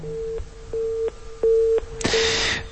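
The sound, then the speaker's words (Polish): Telephone busy tone after a call disconnects: a few evenly spaced, steady mid-pitched beeps, the last cut off by a sudden burst of rustling hiss. “Tu słyszymy rozłączenie”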